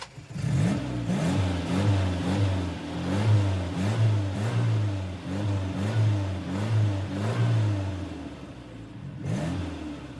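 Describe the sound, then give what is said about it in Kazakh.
A vehicle engine revs repeatedly as the driver presses the gas in the cab, its mid-pitched roar rising and falling in many quick, rhythmic bursts. “Қабағы түсіп, кабинаға кірді. Газды дүр өткізіп, басып-басып жіберді.”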